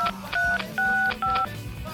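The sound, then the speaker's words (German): Touch-tone keypad beeps sound as a telephone number is dialed, a few short dual-tone beeps in an uneven rhythm with brief gaps between them. “Ich, ich ruf sie an.”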